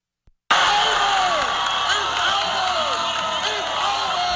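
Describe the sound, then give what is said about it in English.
Students cheer a classmate at the 2026 Dunkman World Championship dunk contest in Moody. After a brief silence, a loud crowd roar bursts in and holds steady, with shouts rising and falling throughout. “That was the sound in Moody this week as ACU students cheered on their fellow classmate Cam Hazard in the 2026 Dunkman World Championship.”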